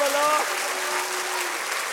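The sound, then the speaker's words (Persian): Audience clapping at a political rally: a steady, dense wash of applause throughout, with a voice briefly audible at the start. “حالا این کف میزنی، کف بزن دیگه.”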